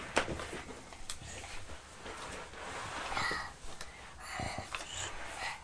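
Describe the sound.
Faint, rasping wheeze from an unwell young boy, with a few uneven, noisy breaths rising and falling and scattered soft rustles between them.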